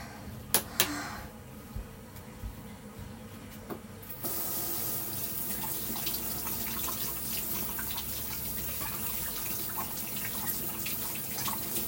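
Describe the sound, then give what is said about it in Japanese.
Running tap water pours steadily into a sink as a toy is washed under it. A few light clicks come first, then the flow starts abruptly and continues as a constant hiss. “お手手でおしっこ触っちゃったので出て洗って、おもちゃもちょっとだけ洗いたいと思います。”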